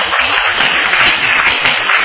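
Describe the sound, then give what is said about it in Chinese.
Applause rises from an audience clapping for a team after its competition score is announced, a dense, steady wash of many hands holding at an even loudness throughout. “我们给他拍手一下。”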